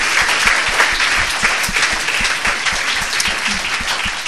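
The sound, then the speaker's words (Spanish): A church audience applauding, loud, continuous and evenly dense clapping that holds steady throughout without any voices on top. “Dale un aplauso grande a Dios.”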